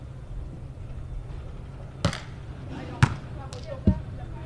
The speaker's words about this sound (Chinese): 现在海口是一队来发球，